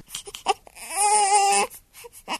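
An infant crying: a single drawn-out wailing cry with a wavering pitch, bracketed by short whimpers and fussy breaths before and after.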